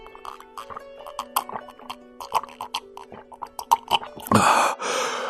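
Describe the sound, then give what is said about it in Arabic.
Someone drinks water to quench thirst, with a run of quick, wet gulping swallows over a soft musical background, followed by a breathy exhale of relief. “خذ يا عزيزي، اشربي الماء واروي عطشك.”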